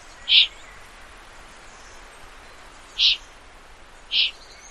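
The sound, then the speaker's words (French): Young eagle-owls calling and begging for food at nightfall, heard as three short, high, hissing cries spaced irregularly over a soft, steady background hiss. “Donc il y a deux jeunes là qui sont en train de crier, de quémander, parce que c'est le début de la nuit. Ils ont faim, donc ils demandent aux adultes”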